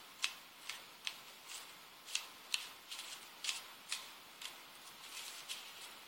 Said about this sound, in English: The card that fell. Okay, spirits just telling me to put it back in the deck.